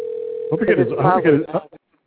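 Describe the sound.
A steady telephone tone sounds while a call rings out, waiting for someone to answer, and continues faintly under people talking before cutting off.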